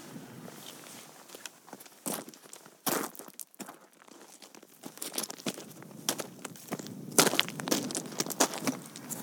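Footsteps crunching across wasteland in West Cumbria: irregular, fairly faint crunching and crinkling steps on rough ground, sometimes louder and sharper, continuing throughout.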